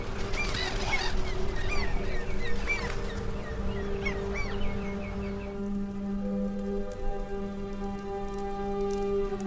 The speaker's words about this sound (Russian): Утро. Над морем летят чайки.